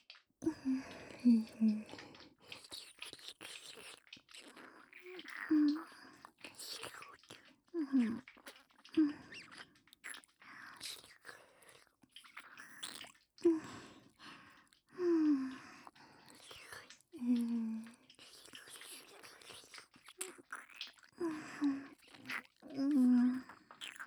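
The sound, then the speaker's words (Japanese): Wet licking and lip smacking of a strawberry lollipop close to the ear, many soft moist slurps and squishes in irregular bursts with short pauses between them. “これいちご味のペロペロキャンディー、お耳の近くでなめなめしてあげるね。”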